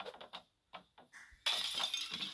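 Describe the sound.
A picture breaking in a video game: a few soft knocks and clicks, then a sudden bright crash of shattering glass that rings on loudly to the end.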